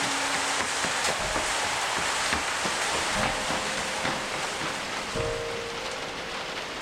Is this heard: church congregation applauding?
no